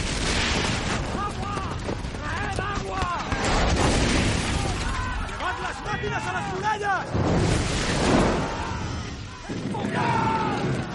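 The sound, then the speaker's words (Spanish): Catapult projectiles crash down on a besieged medieval city in heavy booms and smashing impacts, with shouting and screaming voices rising and falling among the loud, continuous din of battle. “Los proyectiles caen sobre la ciudad.”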